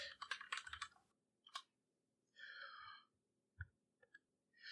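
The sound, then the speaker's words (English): Quiet typing on a computer keyboard: a quick cluster of key clicks, then scattered single taps separated by silence, with a soft breathy hiss partway through. “Type that in right now.”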